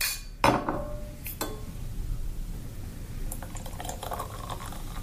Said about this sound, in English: And then I'm going to top it up with some, this is cava, but you could use anything you want, Prosecco, champagne, whatever you want to use.